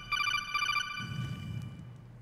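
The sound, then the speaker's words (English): A phone's electronic alert tone announcing an incoming text message: a short, repeated bright melodic pattern lasting under a second, then giving way to a faint low rumble. “I take my phone. Is that like... I don't recognize right away that it's me, but I'm like, oh, I see. It's another text message from McAllister.”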